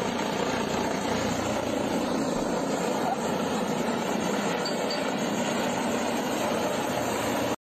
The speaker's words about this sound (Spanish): Te aterrizamos un helicóptero ahí.